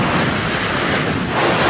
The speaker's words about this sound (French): Vous entendez, c'est le bruit de la mer.